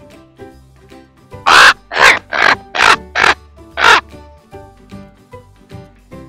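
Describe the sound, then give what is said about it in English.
A crow caws six times in a quick, evenly spaced run of loud, harsh calls, with quieter background sound before and after. “Crow.”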